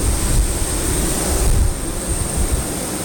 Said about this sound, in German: Sie haben das Triebwerk jetzt angedreht, warum?